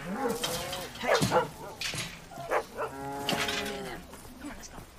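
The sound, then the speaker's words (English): Cows mooing in a field, a few long, low, tonal moos rising and falling in pitch, some overlapping one another, fairly loud over a steady outdoor background. “Are those cows or bulls? Hey, guys! Cows! Cows!”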